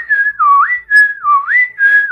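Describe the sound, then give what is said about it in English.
A clear human signal whistle holds a high note, dips to a lower tone and glides back up, repeating the pattern in a steady rhythm with no other sound around it. “And then there is a whistle again,”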